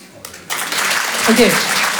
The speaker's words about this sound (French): Il y en a qui se disent par applaudissement toujours, si je gagne, je plaque tout.